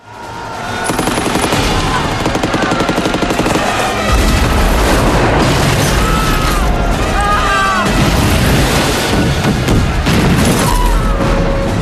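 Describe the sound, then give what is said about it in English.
Artillery shells exploding on a battlefield: dense booms and rattling gunfire run loud and continuous through the whole stretch, growing heavier from about four seconds on. “Soldiers fall lifeless to the ground as shells explode around Vasily.”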